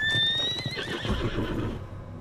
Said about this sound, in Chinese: 马蹄与铠甲的碰撞声已尽，真正的兵马杀到了。